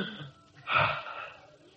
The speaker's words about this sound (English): Take a deep breath. Now, take another deep breath.